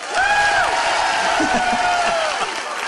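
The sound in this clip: Crowd cheering and clapping at a travel company's 35th anniversary event, with a couple of long, high whistles that dip in pitch at their ends, over a lively wash of voices.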